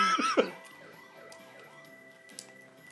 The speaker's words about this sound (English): Did they dub the siren? Something doesn't like a real noise.